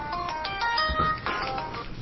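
A cell phone ringtone going off during a committee meeting: a short electronic melody of bright, repeating notes, fairly loud and heard on its own.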